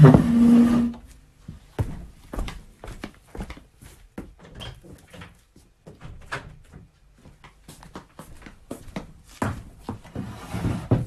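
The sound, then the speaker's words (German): The front door of a house being opened, heard as a low rumbling thud at the start and then many scattered clicks, knocks and soft thumps of moderate loudness over several seconds. “Ich muss dem Telekom-Typen die Haustür aufmachen, weil mein WLAN zurzeit spinnt.”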